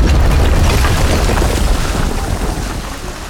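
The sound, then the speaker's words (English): A garden center explodes: a loud, dense roaring blast whose rumble slowly fades over a few seconds. “our intrepid retail employees watch the garden center explode in”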